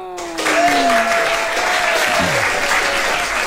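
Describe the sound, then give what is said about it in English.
Audience round of applause at a live show, a dense wave of clapping that starts abruptly after a brief moment and stays loud and even, with a voice briefly heard over its opening. “we always give a round of applause to the most”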